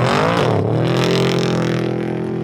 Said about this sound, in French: So the buggies, the UTVs, the trucks are on course right now making laps.